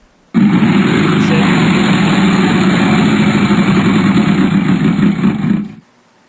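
A Wheel of Fortune wheel spun in a Halloween-edition video game gives a loud, steady whirring that starts abruptly, holds for about five seconds and then cuts off.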